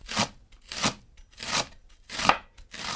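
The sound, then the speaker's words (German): A freshly sharpened knife chops a leek into medium-sized pieces, making crisp, evenly spaced cuts that land at a slow, steady pace, each a short bright crunch against the board. “Und dann schneiden wir den Porree mal so in mittelgroße Stücke.”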